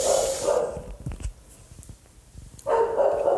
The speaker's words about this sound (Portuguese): E a porra do cachorro não cala a boca, meu pai.